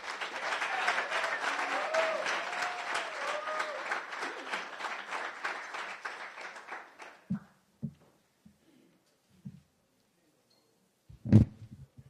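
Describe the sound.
Applause from the audience at a Las Vegas Rotary Club luncheon welcomes UNLV's men's basketball coach. The clapping is dense and steady for about seven seconds, then dies away, leaving a few scattered thumps and knocks.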